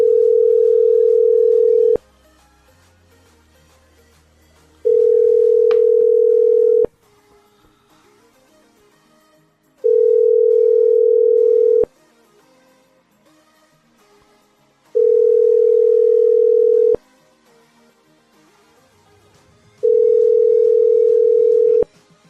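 Telephone ringback tone heard after dialing a number: five steady mid-pitched tones, each about two seconds long, separated by roughly three-second gaps of near silence.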